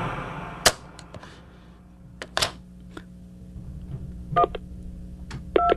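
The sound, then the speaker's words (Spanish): A telephone number being dialed: faint, scattered clicks and knocks from handling the phone, then a couple of brief touch-tone beeps near the end, separated by quiet gaps. “Yo marqué el número telefónico de cada primo, cada amigo en quien podía pensar, pero nadie contestó.”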